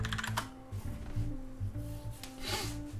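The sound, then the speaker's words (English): Typing on a computer keyboard: a few irregular, sharp clicks of keys being struck, with a steady low hum running underneath. “I'll type it in the chat here.”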